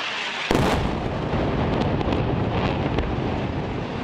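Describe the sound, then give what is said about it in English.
A bombing in Gaza City: a sudden loud blast about half a second in, followed by a sustained heavy roar and rumble, with wind buffeting the microphone throughout. “The opening audio is from a bombing in Gaza City, recorded on July 29th by Russia Today.”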